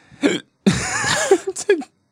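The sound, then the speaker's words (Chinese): A person hiccups: a sharp, abrupt vocal catch, then a longer strained voiced stretch and a few short, jerky catches, with brief silences between. “如同你所听到的，就是我现在我一直打嗝，很抱歉。”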